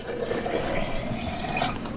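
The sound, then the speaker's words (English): Oil poured into a vessel, a steady, continuous liquid gurgle and splash that runs for a couple of seconds without a break. “Want me to pour the oil, Mother? Thank you, son. But God, through his prophet, said that I must pour the oil, and we must do always exactly as the Lord commands.”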